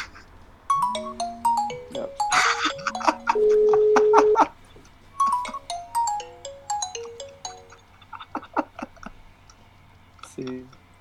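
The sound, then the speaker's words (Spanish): A phone ringtone sounds as an outgoing call rings. A bright electronic melody of stepping notes plays, holds one long sustained tone, then repeats its phrase at moderate loudness. “Ahí va la llamada.”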